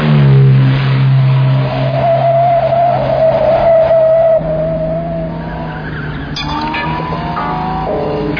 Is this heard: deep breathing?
no